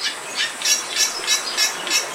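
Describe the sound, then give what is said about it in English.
Bali myna song: a rapid series of shrill, harsh high notes repeating in a steady, even rhythm, moderately loud throughout with no voices. “The 4-year-old Bali Mina in the Vallum aviary is bright white with black wingtips and a blue eye patch. Her species also has a distinct song.”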